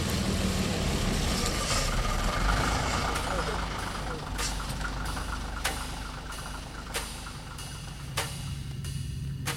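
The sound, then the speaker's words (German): A bus engine idles with a steady, broad, low rumble that holds throughout. A few sharp clicks stand out near the end. “Der Bus. Wir steigen hinten ein, damit ich sie dann besser im Blick habe.”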